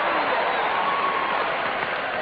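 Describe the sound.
An audience at a sermon applauds and cheers, making a dense, steady roar of clapping and crowd noise that stays loud for the whole clip.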